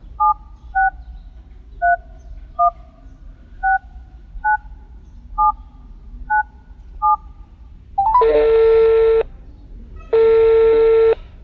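A telephone keypad dials a call: nine short two-tone beeps at a steady pace, followed by two long, buzzy ringing tones separated by a brief gap.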